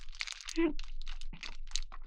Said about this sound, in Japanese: ちなみにこれはね、ミニストップの、おにぎりの、鮭いただきます。